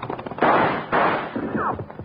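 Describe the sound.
Gunfire in a Western radio drama shootout: a few loud, booming shots, with two heavy blasts close together followed by smaller cracking reports.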